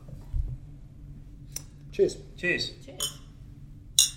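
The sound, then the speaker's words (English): Glasses clink together in a toast, giving a few short, bright, ringing clinks spread out over a faint, low background. “Cheers. Well, people get free clinks.”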